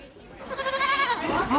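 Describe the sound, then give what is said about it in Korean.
Dwarf goat kids bleat in a high, harmonic, quavering cry. One long bleat wavers in pitch and is followed by a second one that starts up right after it. “바로 난쟁이 염소라고 부르는 작은 염소들입니다.”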